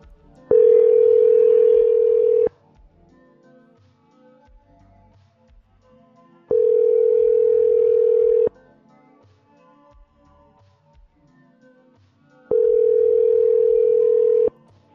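Ringback tone of a telephone call going unanswered: three loud, steady two-second tones, each followed by a longer silent gap, with no voices.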